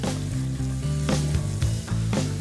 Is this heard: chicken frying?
yes

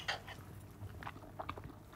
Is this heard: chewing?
yes

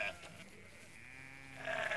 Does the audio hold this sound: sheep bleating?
yes

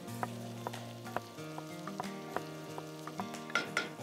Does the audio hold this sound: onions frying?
yes

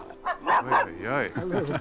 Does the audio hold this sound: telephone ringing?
no

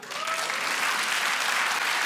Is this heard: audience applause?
yes

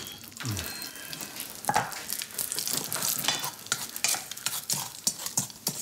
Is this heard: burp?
no

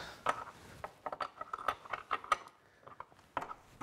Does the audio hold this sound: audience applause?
no

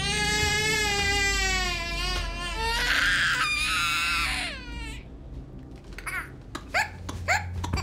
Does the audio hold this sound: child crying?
yes

